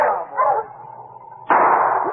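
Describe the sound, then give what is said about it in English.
A sled dog team barks, giving a few loud, drawn-out bursts separated by a quiet gap. “As he and his dog team approached a point where a cross trail from Wolf Creek joined the Caribou Creek Trail, he halted the team for a short rest.”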